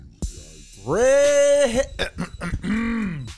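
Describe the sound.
A person with soybeans stuck in the throat coughs and clears it. A sharp catch leads into a long, strained, voiced rasp, then choppy bursts, and finally another drawn-out groaning clear.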